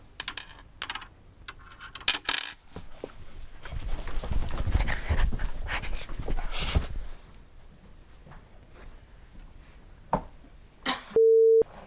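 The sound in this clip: A phone ringing tone sounds near the end as a steady single-pitched beep, following a stretch of clattering, keyboard-like tapping and rustling.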